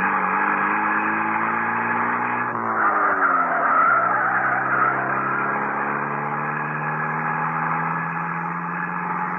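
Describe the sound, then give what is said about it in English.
A Bentley car driven as fast as it can go, its engine roaring loud and steady throughout. The engine's pitch dips briefly, then climbs gradually again as it keeps accelerating. “ran back to his Bentley, climbed in, and drove as fast as he could towards town.”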